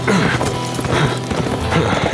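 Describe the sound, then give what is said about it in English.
Hoofbeats of a saddled horse galloping, a rapid, continuous drumming of hooves that stays loud and steady throughout with no voices. “While Stormy was still galloping, Frank swung down from the saddle, as good a running dismount as anyone could make.”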